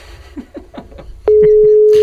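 Telephone line tones: a few short, murmuring tonal blips, then a loud, steady, unbroken tone holds from just past the first second to the end.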